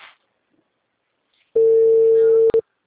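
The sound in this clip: The ringing tone of an outgoing telephone call starts after near silence. It is a single loud, steady electronic tone lasting about a second, with a brief break just before it ends.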